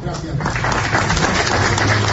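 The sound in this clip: Audience applause at a cultural award ceremony: a short, dense, steady wash of clapping that holds at an even level throughout.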